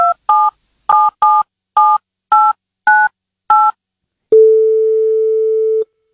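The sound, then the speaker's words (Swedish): Telephone keypad tones as a number is dialed: nine short two-tone beeps in an uneven rhythm, followed by one long, steady ringing tone. “Kan vi ringa henne och du kan säga hej?”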